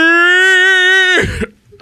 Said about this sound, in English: he coughed there at the end